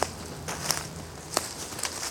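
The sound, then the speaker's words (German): Footsteps on a walk through a hillside forest near Karlsruhe give a few faint, irregular crunching and crackling steps on the woodland ground, with no voices. “Spaziergang im Grötzinger Bergwald bei Karlsruhe.”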